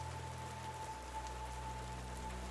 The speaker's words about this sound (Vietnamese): cơn mưa bắt đầu nặng hạt